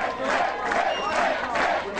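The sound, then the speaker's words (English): A crowd cheers at a New Hampshire campaign headquarters on primary night after an easy victory, a brief, dense roar of whooping voices that stays loud throughout. “Cheers erupting at Mitt Romney's New Hampshire headquarters as the former Massachusetts governor cruised to an easy victory in the Republican primary there.”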